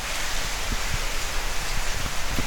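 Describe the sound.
Heavy rain pouring down outdoors: a dense, steady hiss throughout with scattered soft low thumps of drops, and no voices.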